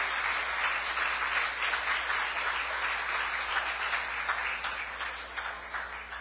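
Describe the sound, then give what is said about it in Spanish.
Congregation applauding during a church worship service: dense, steady clapping fills the whole clip at an even level and eases slightly toward the end. “Si va a aplaudir al Señor, apláudalo de corazón, con gozo.”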